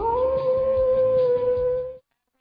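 A coyote lets out a single sustained howl, a loud, steady, high tone held for about two seconds before cutting off abruptly into silence.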